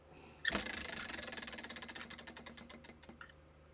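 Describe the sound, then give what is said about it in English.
A spinning prize wheel clatters with many rapid ticks that gradually space out and slow until the wheel stops after about three seconds. “So it's my turn to spin the wheel, right? Or is it your turn? I forgot. I thought I spun it last. So okay, yeah, so it would be my turn.”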